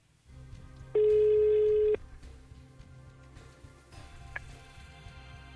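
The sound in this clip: A single steady ringback tone lasting about a second sounds on an outgoing phone call, fairly faint overall, followed by a quiet stretch of low background hum with a brief click.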